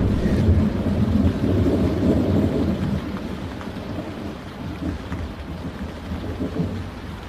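Rain pours steadily with rumbling thunder in a winter storm, a dense low roar that is loudest for the first three seconds and then carries on slightly quieter, with no voices.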